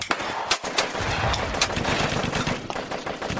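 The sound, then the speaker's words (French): Combat noise of automatic weapons firing, with dense, rapid crackling bursts of gunfire and a few sharper, louder reports, continuous and loud throughout amid a din of grenades and artillery. “Les bruits de grenades, d'artillerie, d'armes automatiques se rapprochent.”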